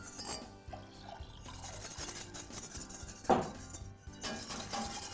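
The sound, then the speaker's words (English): A whisk scrapes and clinks against a pan as turkey bone broth is stirred in to keep lumps from forming. The metallic scraping is steady, with one sharper clink midway, and no talk. “we're going to take some bone broth, and I'm using turkey broth since my protein is going to be turkey meat, and whisk around so that we don't get any lumps.”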